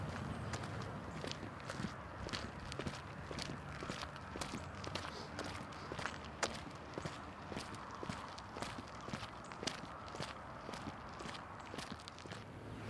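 Footsteps of two people walking toward a community center on a cold, windy day: many steady, evenly paced steps crunching along without pause, with no talking.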